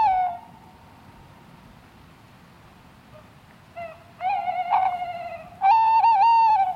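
Male owl giving its territorial song at night in woodland: clear, whistled, quavering hoots, one faint call at the start, then louder calls after a pause, ending in a long, wavering, drawn-out hoot.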